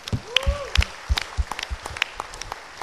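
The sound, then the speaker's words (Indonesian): An audience applauds two guest speakers at an architecture talk. The clapping is scattered and moderately loud, with sharp individual claps standing out over a softer, continuous patter. “So please give applause to our two guest speakers.”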